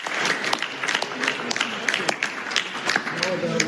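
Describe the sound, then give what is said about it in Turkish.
Steady applause from attendees after a signing ceremony with Donald Trump, French President Emmanuel Macron and the French First Lady present. The dense, even clapping runs under a narrating voice. “Trump'ın yanında Fransa Cumhurbaşkanı Emmanuel Macron ve Fransız First Lady hazır bulundu. İmza atılınca alkışladılar.”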